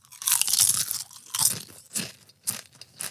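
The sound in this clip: Creamy cheese and basil potato chips crunch sharply as they are bitten and chewed. Several crisp, dry crunches come in separate bursts, with short pauses between them and no talking.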